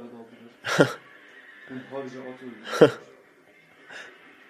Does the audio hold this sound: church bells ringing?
no

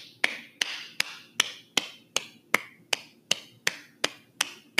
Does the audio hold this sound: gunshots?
no

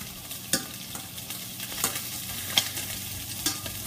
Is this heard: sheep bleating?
no

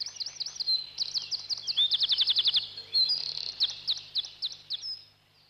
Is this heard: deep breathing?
no

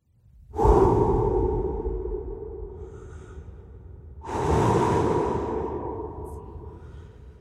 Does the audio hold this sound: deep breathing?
yes

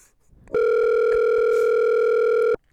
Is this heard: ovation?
no

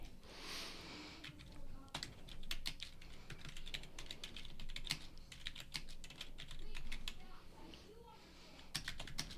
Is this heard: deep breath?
no

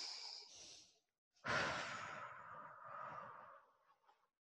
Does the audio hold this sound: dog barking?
no

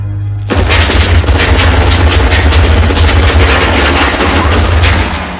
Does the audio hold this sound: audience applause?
no

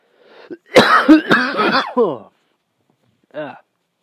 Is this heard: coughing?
yes

